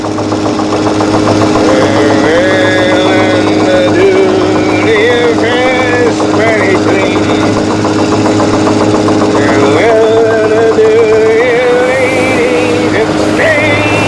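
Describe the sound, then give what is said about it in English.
A boat engine races past its maximum RPM, pouring black smoke and burning out its bearings, a loud, steady droning roar under voices talking. “The needle on the RPM gauge hits over the maximum and black smoke pours out of the engine compartment.”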